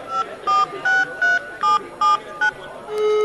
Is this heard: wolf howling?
no